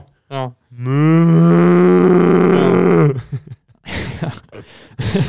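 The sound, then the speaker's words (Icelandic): A cow moos in one long, low, drawn-out call lasting about two seconds, with a short lower sound just before it. Voices talk afterward. “það er kýr Baula, það er baula”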